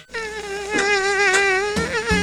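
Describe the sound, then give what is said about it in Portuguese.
A steady high-pitched buzzing whine from an Aedes aegypti dengue mosquito, a continuous drone with a slight wavering pitch lasting about two seconds, broken by a few faint clicks. “eu sou a Aedes aegypti, mas pode me chamar de Mosquito da Dengue.”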